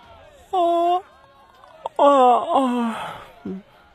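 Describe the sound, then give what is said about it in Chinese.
A man's voiced yawn: a short moaning tone, then a longer drawn-out vocal yawn sliding downward in pitch, followed by a brief low murmur at the end. “回去的路上，展昭打了个哈欠。”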